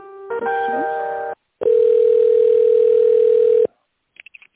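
A telephone line tone while a call is transferred at a company: a buzzy, harmonic-rich tone, a brief silence, then a loud, steady single tone lasting about two seconds, followed by a few quick, faint beeps.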